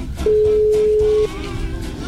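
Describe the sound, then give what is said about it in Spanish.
A telephone tone sounds during a call being placed: one steady, mid-pitched tone holds for about a second, then cuts off, leaving a low background hum and murmur. “No, ¿a quién le estamos marcando?”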